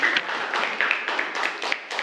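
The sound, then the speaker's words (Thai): Students clapping in a classroom, a dense, steady patter of many hands lasting about two seconds. “ปรบมือให้เพื่อนด้วยนะครับนักเรียน”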